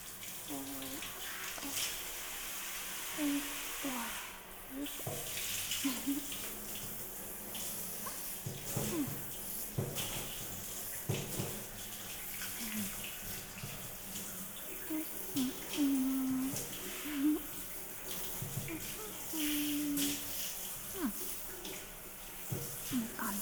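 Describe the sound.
Warm water running from a tap for rinsing, a continuous soft hiss with light splashing that varies a little, and faint voice sounds at times underneath.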